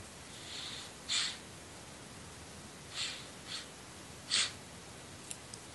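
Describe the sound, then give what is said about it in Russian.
Deep breaths in and out during a guided meditation session: a few soft, airy breath bursts separated by pauses, faint against a steady background hiss, with no talking. “Ну, немножко подышим, несколько вздохов-выдохов, чтобы прийти в себя.”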